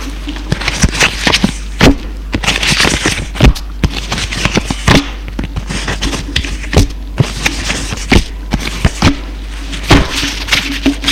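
A deck of tarot cards being picked up from a low table and handled, giving many sharp, irregular taps and snaps with a few louder slaps. No voices.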